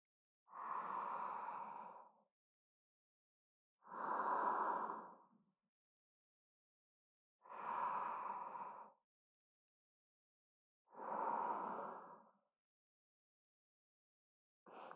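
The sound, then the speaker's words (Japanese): Slow, deep breathing: four full breaths, each a soft airy rush lasting under two seconds, spaced about three and a half seconds apart with silence between them, and a fifth starting at the very end. No one speaks. “まずは深呼吸してみようか。ほら、お姉さんに合わせて息をしてみて。”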